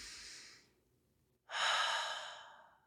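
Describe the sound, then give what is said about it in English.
Deep breathing during a guided relaxation exercise: a soft, airy breath fades out, then after a short silence a louder, longer breath swells and slowly tapers away. No one talks. “Do that deep breath with me.”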